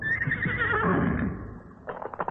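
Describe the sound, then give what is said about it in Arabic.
A mare that has slipped her halter and runs through city streets lets out a long, wavering whinny that trails off, followed by a few short, sharp hoof-like knocks. “لم يقطع الصمت المهيب سوى صهيل فرس جاءت كما نتخيلها تركض بعد أن خلعت رسنها”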